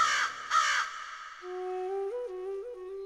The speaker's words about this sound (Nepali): तिम्रो बाटो हेर्दै म थिएँ, काग करायो माथि।